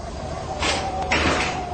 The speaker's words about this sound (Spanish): ¡Miren! ¡La escotilla se está abriendo!